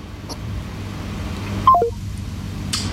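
Telephone tones sound as a call is placed again after a dropped connection: a brief run of short electronic beeps stepping down in pitch, heard over a steady low rumble.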